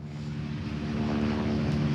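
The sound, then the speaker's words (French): Water-bombing helicopter with a 1000-litre capacity flying over a large wildfire in the Aude: a steady, loud droning roar with a continuous low rotor-engine hum that holds unchanged throughout, with no talk. “regardez à l'instant, vous avez un hélicoptère bombardier d'eau qui survole la zone.”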